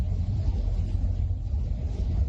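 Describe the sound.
Low, steady engine and road rumble from a car driving away while its occupants flee, a continuous dull drone with no distinct separate events.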